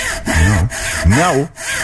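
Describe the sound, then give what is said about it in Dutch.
A saw cutting through a tree, its wooden rasping strokes pushed back and forth in a few loud, rhythmic pulls with short breaks between them. “Nou, ja, die boom gaat er bijna aan. De zaag, ja, ja.”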